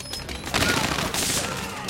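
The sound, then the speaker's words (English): Dense automatic gunfire from a vicious gunfight in a barn between armed heavies and an assault squad, forming a loud, continuous crackling barrage with no clearly separate shots. “Upstairs, the vicious gunfight between Ted's heavies and the black-clad Korean assault squad is in full swing.”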